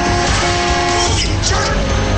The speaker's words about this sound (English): The Trillings and Cooper drive into the tunnel. The dog sticks his head out of the rear window. The muggers tailgate.